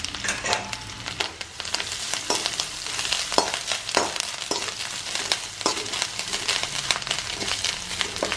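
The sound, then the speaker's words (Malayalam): Grated coconut and curry leaves frying in a hot pan: a steady, loud sizzle and crackle with repeated scraping strokes as the mixture is stirred, continuous throughout, with no talk. “3-4 spoon തേങ്ങയും കൂടെ അതിനകത്ത് തന്നെ ഇട്ടേക്കാം. എല്ലാം കൂടെ മൂത്ത് വരട്ടെ.”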